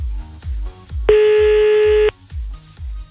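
Line tone as a telephone call is placed: a single steady, mid-pitched tone lasting about one second cuts in over a regular low thumping beat, then stops abruptly.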